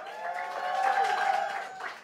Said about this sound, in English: Clap it up.